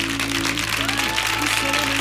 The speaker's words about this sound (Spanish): ¡Aplausos!